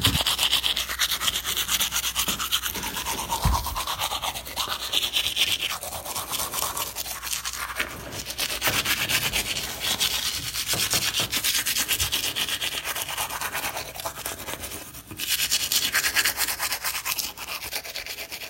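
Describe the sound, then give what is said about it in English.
Teeth being brushed with a toothbrush: a continuous wet scrubbing and rubbing that runs steadily and moderately loud for the whole clip, with one brief dip near the end before the brushing resumes. “That was obviously the audio of me brushing my teeth”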